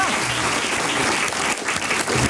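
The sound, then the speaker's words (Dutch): Audience applause at a recipe competition, a dense, steady clapping that stays loud and even throughout, with no voices standing out over it. “We mogen best klappen, mensen.”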